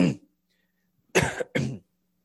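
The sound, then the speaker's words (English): Three loud coughs from a tickle in the throat, one at the start, then two close together after a short silence, with no other sound. “Excuse me, I got a tickle in my throat here.”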